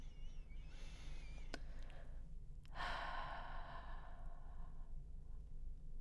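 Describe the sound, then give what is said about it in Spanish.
A slow, deep breath drawn in and let out during a guided breathing exercise. The long exhale is soft and airy, heard alone without talk over a steady low hum. “Una vez más, inspira lenta y profundamente, exhala.”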